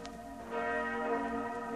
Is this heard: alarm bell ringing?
yes